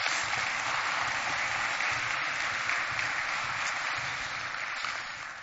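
A church audience applauds to welcome guests to the stage during a morning service, with dense, sustained clapping that stays even and then eases slightly toward the end.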